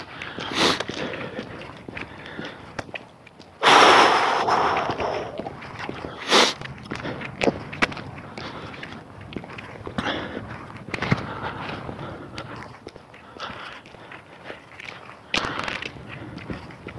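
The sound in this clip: Footsteps of a hiker out on a cold morning trail, a long steady run of many soft scuffing steps with a few sharper, louder scrapes mixed in, and no talking.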